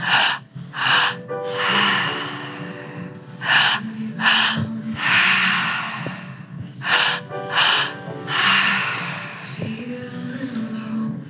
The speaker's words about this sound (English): Just a handful of minutes of active breath more.